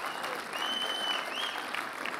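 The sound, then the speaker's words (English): Church audience applauding, a steady, even wash of dense clapping that holds at a moderate level throughout, with a thin high tone running faintly over it. “Come on, if you love Jesus this morning, give him a big round of applause.”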